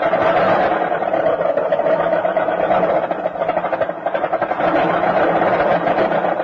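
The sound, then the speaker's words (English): Car engine bucking and sputtering on a cold winter morning as it fails to start: a loud, continuous rough churning rumble with a brief dip partway through. “Bucking and sputtering like that is a pretty unpleasant way to start off the day, and unnecessary, too. You see, there's a gasoline that's made to give you quick starts and fast warm-up, even on the coldest mornings.”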